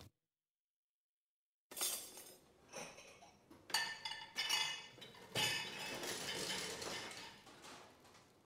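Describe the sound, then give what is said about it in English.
Faint clinks of dishes and cutlery while breakfast is made: a silent opening, then many light chinks, taps and scrapes of crockery and utensils in an irregular, fairly continuous run. “I'm gonna go make some breakfast. Try to be a decent host, I guess.”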